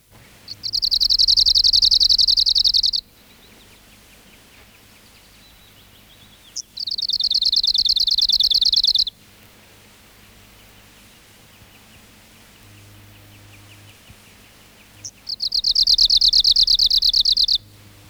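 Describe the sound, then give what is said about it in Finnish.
Arctic warbler song: three bursts of rapid, high, dry trilling, each lasting a couple of seconds and separated by long pauses, with no other voices. “Lapin uunilintu.”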